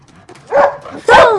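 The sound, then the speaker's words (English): A dog indoors gives two sharp, whining yelps, halfway between barks and whimpers. The second is louder than the first. “You let the dog in”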